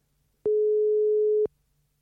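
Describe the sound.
A telephone call tone sounds as someone's phone is dialled: a single steady, low electronic beep lasting about one second, clean and alone against near silence.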